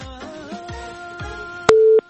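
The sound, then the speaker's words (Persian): A telephone busy signal sounds after a call fails to connect. Low tone pulses repeat about every half second, and a sharply louder, steady burst closes the sequence. “فکر میکنم که تماس وصل نشده یا قطع شده.”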